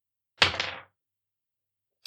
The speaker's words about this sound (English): Roll that persuasion check.